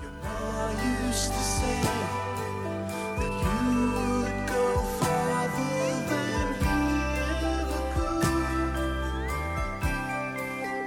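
Soft rock song plays continuously, with layered sustained instruments and steady rhythmic accents at an even, full level throughout.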